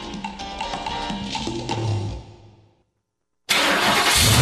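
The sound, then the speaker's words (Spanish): A diesel car engine starting, with a churning mechanical rumble that fades out after a couple of seconds. A short silence follows, then a sudden loud, steady burst of noise. “cuide su motor diésel. Venga al Diagnosticentro Diesel La Montaña.”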